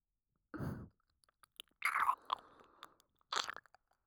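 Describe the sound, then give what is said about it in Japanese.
Wet licking and mouth sounds of ear licking in a quiet role-play service: three separate bursts of soft smacking and crackling, with faint clicks between them in near silence. “私、黙ってお耳を舐めさせていただきますね。”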